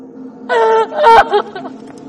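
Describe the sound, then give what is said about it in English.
A woman wails alone in the woods, letting out two loud, tremulous cries in quick succession, then quieter breathy sounds as the wailing fades. “Smash cut to Lena, alone, in the woods, bent over, wailing.”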